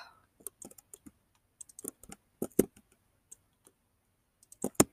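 Typing on a computer keyboard during an online game by someone whose finger has a cut covered by a bulky dressing: quiet, irregular key clicks in scattered clusters, separated by short pauses.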